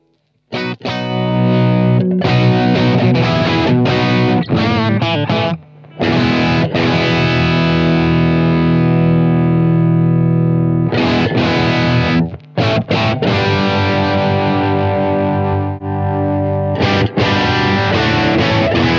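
Distorted electric guitar lead tone from a powerful 40-watt tube amp, heard through tight 4x12, ambient combo and balanced 4x12 cabinet simulations. Three loud, bright, harmonically rich lead passages are separated by two brief pauses.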